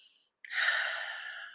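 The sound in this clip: A soft, steady airy hiss of a deep breath taken in a women's group meditation, starting abruptly after a faint brief puff and holding evenly to the end.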